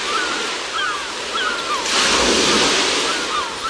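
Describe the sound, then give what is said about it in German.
Waves wash onto the Barceloneta beach in Barcelona as a steady broad rush that swells louder midway, with several faint seagull cries above the surf. “hier ein bisschen Sommerstimmung, Möwen und Wellen hier am Strand der Barceloneta von Barcelona.”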